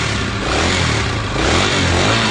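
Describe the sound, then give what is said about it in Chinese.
A motorcycle engine roars as the bike drives away, a loud, steady, revving drone that fills the whole stretch with no voices. “可怜他的叫声也很快被摩托车拖走了。”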